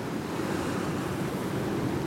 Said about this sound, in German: Ununterbrochen heulte und pfiff der Sturm, stürzten sich die Wellen auf das Schiff und peitschten es vor sich her ins Ungewisse.